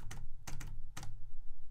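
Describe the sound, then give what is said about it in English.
Typing on a computer keyboard while entering a scheduled time, with a few quick clusters of crisp keystrokes over a steady low background noise. “this is where you go ahead and schedule the time, and then I'll just type in... we have something.”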